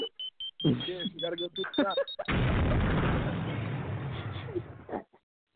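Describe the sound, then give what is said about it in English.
A time bomb sound effect goes off after a short stretch of talk: a loud, sustained booming roar, like an explosion, that rumbles on for a few seconds before it dies away. “Cue the time bomb.”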